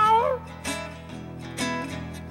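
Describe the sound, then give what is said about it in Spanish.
A man's voice imitates the meow of an old cat at a live concert, a wavering, drawn-out cry over steady musical backing tones. “Yo maullo en los caminos cual si fuera un viejo gato.”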